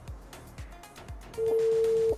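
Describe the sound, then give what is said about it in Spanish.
A single steady electronic call tone from the dashboard touchscreen of a 2023 Mitsubishi Mirage G4 sounds for under a second, fairly clear over faint, regular low pulses, with no talk. “por ejemplo, ahí estoy haciendo una llamada.”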